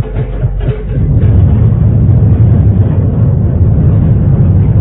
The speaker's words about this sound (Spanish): El mecanismo se puso en marcha. Lentamente el brazo de acero de la torre ascendía con el avión enano